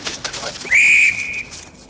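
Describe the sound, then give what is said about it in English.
A referee's whistle is blown for a foul in a football match: one shrill, high-pitched blast of about half a second that trails off more faintly, over low background noise. “blows a whistle for a foul in a football match.”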